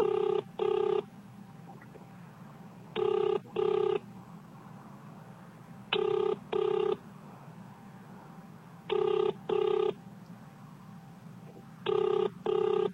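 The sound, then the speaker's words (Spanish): A telephone ringback tone plays while a call to a state security office in Jalisco, Mexico, is being transferred. Five evenly spaced double rings repeat about every three seconds over a low steady hum. “Para hablar con una operadora, marque 0 o espere en la línea. Espere mientras se transfiere su llamada.”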